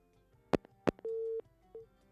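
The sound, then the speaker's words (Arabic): A phone call cutting off: two sharp clicks, then a steady mid-pitched line tone lasting under half a second, followed by a shorter second beep. The sound is quiet and no one talks. “انقطع الاتصال، نعاود الاتصال، خلي يعاودون الاتصال.”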